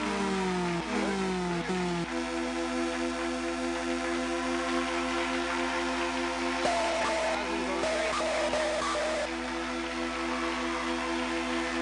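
Electronic engine drone from the TX-1 arcade racing game as a player starts driving. A buzzing, harmonic tone shifts pitch a couple of times early on, then holds steady, with noisier bursts partway through.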